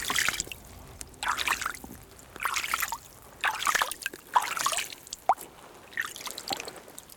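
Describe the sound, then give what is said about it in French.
Water trickles and drips in an unfrozen mountain water reservoir in the winter Pyrenees, a soft, irregular gurgle that swells and fades in uneven bursts. “Et ici, un réservoir d'eau. Étonnamment, il n'est pas gelé.”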